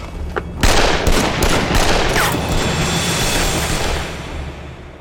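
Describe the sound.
Gunfire erupts right after an order to shoot: a few sharp cracks at first, then a dense, sustained barrage of shots that stays loud throughout.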